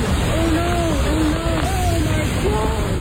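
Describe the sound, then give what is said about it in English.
Roar of a flash-flood waterfall in Zion National Park, Utah, as heavy downpours swell the water: a loud, steady rushing wash with no breaks, and people's voices faintly audible over it. “Brief video clip there of essentially a waterfall in Zion National Park in Utah.”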